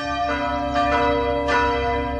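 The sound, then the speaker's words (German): Church bells rung by hand with a rope: three loud strikes with rich, sustained overlapping tones that keep ringing between blows. “Dann natürlich das Beinhaus und das Glockengeläut. Geläutet werden die Glocken übrigens per Hand mit einem Seil.”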